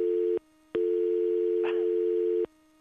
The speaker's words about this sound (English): I was trying to put through another caller. Okay. I kind of made a mistake there. Nothing like hearing dial tone.